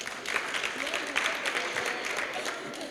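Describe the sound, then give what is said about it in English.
Classroom students clapping for themselves after answering correctly, quiet, scattered hand claps in an uneven patter that tapers toward the end. “Very good. Clap for yourselves.”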